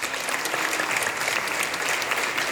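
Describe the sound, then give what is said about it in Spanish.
Audience applause at a 2021 jazz festival concert in Córdoba with a symphony orchestra and a jazz trio: a dense, steady wash of clapping that holds at an even level from start to finish. “Así que bueno, un gran aplauso para esta gestora cultural.”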